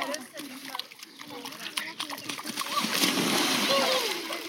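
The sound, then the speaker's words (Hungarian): Water splashing along the Danube riverbank during a heat dome, bright sloshing splashes that build and grow busier toward the end, with voices, including children's, mixed in throughout. “Ez például a hőkupola alatt a Dunaparton vettem föl.”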